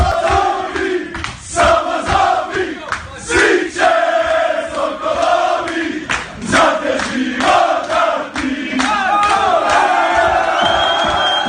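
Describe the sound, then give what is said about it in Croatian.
Loud, rowdy chanting and shouting from Croatia's national football team celebrating in their dressing room with the country's president, with voices rising and falling in bursts of cheering and whooping throughout. “A donosimo i dijelić atmosfere i svlačionice kada je Vatrenima došla čestitati predsjednica Kolinda Grabar-Kitarović.”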